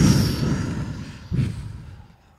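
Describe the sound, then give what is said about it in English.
Breath pushed fully out of the lungs: a long, breathy rush of air, then a second shorter gust that tapers away into near silence. “Wait, let's breathe it all out.”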